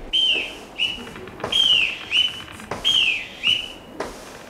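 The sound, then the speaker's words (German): A boatswain's pipe on a ship sounds several shrill piped calls, each a bright high tone that rises and then falls, repeated in a loose rhythm over steady background noise. “Deckscheuer nach der Pfeife des Bootsmannes.”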